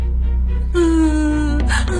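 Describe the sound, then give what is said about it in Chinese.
A child cries on a riverbank near a boat, letting out a brief, steady-pitched wail that rises over a loud, constant low rumble and then fades into whimpering. “哎呀，小朋友别哭了啊。”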